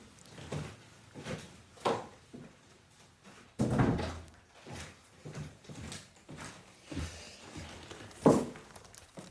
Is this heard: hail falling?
no

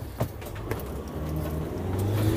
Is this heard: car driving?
yes

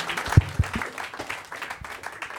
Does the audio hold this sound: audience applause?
yes

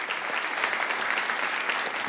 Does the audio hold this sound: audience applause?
yes

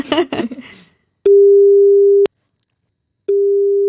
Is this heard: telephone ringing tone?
yes

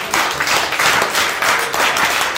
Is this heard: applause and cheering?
yes

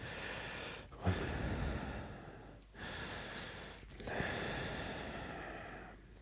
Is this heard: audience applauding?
no

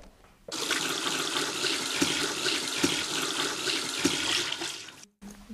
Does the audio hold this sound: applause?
no

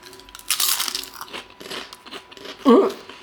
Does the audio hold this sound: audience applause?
no

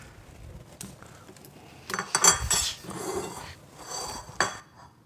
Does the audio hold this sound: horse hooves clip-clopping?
no

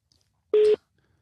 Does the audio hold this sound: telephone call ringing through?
yes

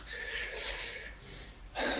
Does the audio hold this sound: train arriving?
no

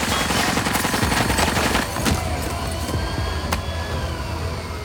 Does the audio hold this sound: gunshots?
yes

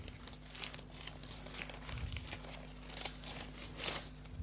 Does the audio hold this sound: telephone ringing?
no

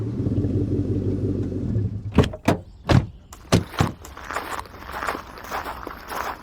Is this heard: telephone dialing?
no

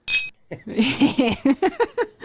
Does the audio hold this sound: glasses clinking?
yes

